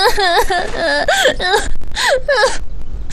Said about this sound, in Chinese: 别哭别哭